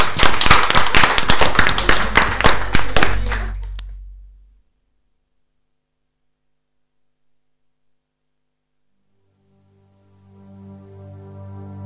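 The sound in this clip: A burst of distinct, rapid claps over a low hum, like applause on a radio program, stopping abruptly after about four seconds. Silence follows, then soft sustained tones fade in near the end.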